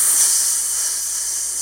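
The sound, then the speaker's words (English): Air hissing out of a deflating inflatable raft: a loud, steady, bright hiss that holds at an even level for the whole short stretch without break. “It's the sound of the raft deflating.”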